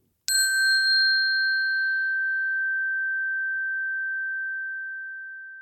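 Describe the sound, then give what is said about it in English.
A single bright chime marks the end of a walk invitation: one clean struck tone, alone, that rings on with a long, slowly fading sustain. “I'll be using this sound throughout the walk to mark the end of one invitation and the beginning of another. So if you feel like taking more time with an invitation, just press pause at the sound of the chime”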